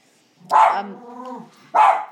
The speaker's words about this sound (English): I don't know what he's barking at, unless he can see his reflection in the window, which is quite likely.